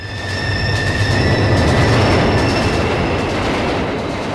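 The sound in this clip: A subway train rumbles loudly and continuously, with steady high-pitched wheel squeal ringing over the low roar and no voices.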